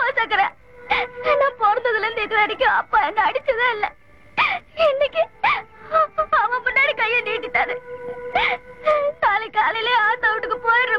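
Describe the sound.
A girl cries loudly in repeated wailing, wavering sobs that break off into short pauses and then start again.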